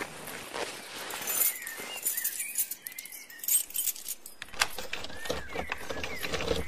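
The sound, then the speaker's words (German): Lock being picked with a picklock to open a door: faint, intermittent metallic clicks, scrapes and jingling rattles, mostly quiet with brief louder bursts. “öffne mit deinem Dietrich die Tür.”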